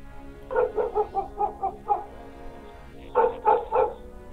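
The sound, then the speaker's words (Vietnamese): A dog barks from inside a house in hilly country: a quick run of sharp, mid-pitched barks, a pause, then a shorter second burst of barking. “Nghe có tiếng người lạ tới, trong nhà vọng ra tiếng chó sủa, vang cả núi đồi, làm tôi giật cả mình.”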